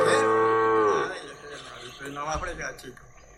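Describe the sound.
A calf gives one long, loud, rich-toned moo that bends downward in pitch as it ends, followed by quieter talk and shuffling.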